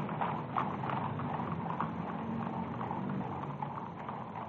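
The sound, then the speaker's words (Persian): Clip-clop of Imperial Guard cavalry horses on parade, many hooves striking in a steady, even rhythm, faint throughout with no talk. “اسواران گارد شاهنشاهی در پشت سر ملوکانه در حال حرکت هستند.”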